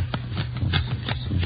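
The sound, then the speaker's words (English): Playing cards being dealt out one by one for a two-handed game, fifteen cards each: a quick series of soft, papery flicks and snaps at a fairly steady rhythm. “You deal out 15 cards, see?”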